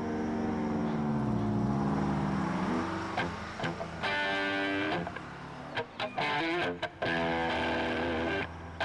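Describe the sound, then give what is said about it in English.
A bus drives away down the road, its engine giving a steady droning hum whose pitch wavers. Brief sharper bursts break through near the end. “He watches the bus moving down the road, then begins to walk.”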